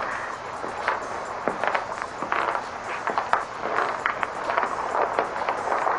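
Footsteps walking along a narrow plank toward a seawall beside a runway; many quick, uneven steps thud and scuff in an irregular rhythm over a steady hiss.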